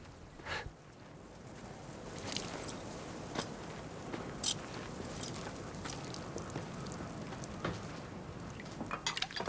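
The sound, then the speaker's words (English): Dishes, a spoon and a pot lid clink faintly as stew is served into three bowls at a dinner table, with scattered light clinks over a soft background and one sharper clink midway. “A moment later, they're both sitting at a dinner table as the old man serves up three bowls of stew. While Pete waits for the old man to replace a lid on the pot,”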